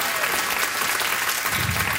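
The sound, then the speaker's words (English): An audience applauding a speaker: a dense, steady wash of clapping that holds at an even, fairly loud level for the whole two seconds. “Robert, give it up to Robert.”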